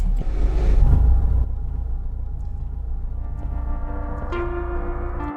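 A car drives on after stopping for a moose on a road near a village among marshes. Its low engine rumble is loudest over the first second and a half, then settles into a steadier, quieter drone.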